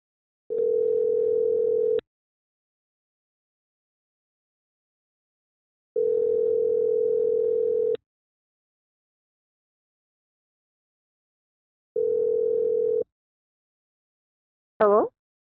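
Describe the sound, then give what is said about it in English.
A telephone line tone sounds while a call is dialed: three steady, level tone bursts separated by silent gaps, the last one shorter, followed by a brief voiced sound at the very end. “All right, muting and dialing.”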